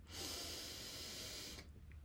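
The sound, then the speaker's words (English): One long, deep breath is drawn in through the nose during a seated breathing exercise, a soft, airy, faint hiss lasting about a second and a half before it stops. “Bring the hands to the knees, close your eyes, and take a deep breath. Inhale through the nose.”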